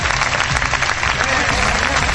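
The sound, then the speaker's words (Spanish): Applause from allied deputies during a heated regional parliament plenary in Valencia, following a vote on a contested law; loud, dense and continuous clapping that holds steady throughout. “Aplausos de los socios”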